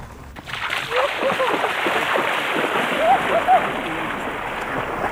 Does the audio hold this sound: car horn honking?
no